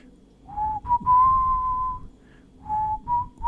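Someone whistles a rock song melody in clear, steady notes. Two phrases are separated by a short pause, with low background noise underneath.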